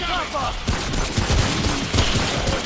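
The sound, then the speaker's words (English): Rapid gunfire in a shooter video game, with many sharp cracks crowding together in quick, irregular bursts over constant dense noise. “Shoot his back if you can, or his head. I should have this gun.”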